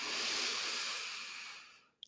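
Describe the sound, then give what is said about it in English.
A long, breathy exhale fills about two seconds, starting loud and fading gradually, followed by a brief faint click. “Okay, so that's the breath. We're bringing the breath into the podcast today.”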